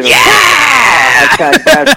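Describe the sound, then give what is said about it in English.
A loud, dramatic scream from a man's voice, drawn out and strained for over a second, then broken into a few short vocal bursts. “oh, dude, that is a killer scream. That is a good one.”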